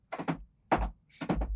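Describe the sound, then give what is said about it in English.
A cat at a bedroom door wanting out makes the door rattle and thump in three short clusters of quick knocks, separated by brief silences. “Uh-oh. I may have a cat that wants out. Would you pardon me for a moment?”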